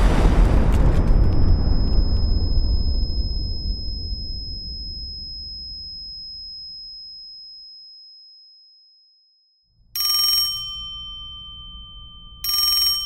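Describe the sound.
A boiler rigged like a bomb explodes with a huge, deep boom whose roar decays slowly over several seconds into silence. After a pause, a telephone rings twice.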